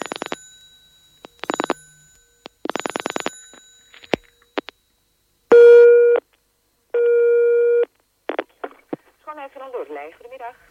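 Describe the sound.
A telephone busy signal sounds as two long, steady, evenly pitched tone bursts. Choppy electronic bursts come before them, and short sounds and voice-like tones follow.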